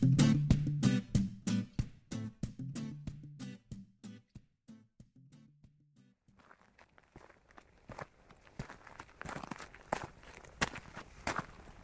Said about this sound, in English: It's just after 4:15 in the afternoon, and I am walking along a slight incline along a track